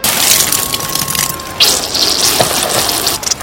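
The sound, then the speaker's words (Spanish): Punch spills from a tipped glass onto a suit at a spring party: a steady watery gush, with a sudden splashing burst partway through before the liquid keeps running. “Oh, lo siento, Pedro. Se dio vuelta el vaso de ponche sobre tu traje.”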